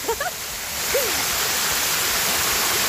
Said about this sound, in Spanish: Se vino la quebrada.